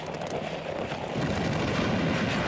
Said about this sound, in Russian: В опасной близости от всадников взрываются снаряды.